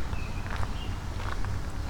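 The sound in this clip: Footsteps of a person walking outdoors on a windy day: soft, faint steps in a steady rhythm, partly buried under a constant low rumble of wind.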